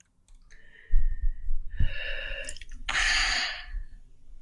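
A woman in pain blowing out her breath with her mouth wide open: a few breathy, wheezing exhales with a hoarse, tonal edge. The final exhale is the longest and noisiest.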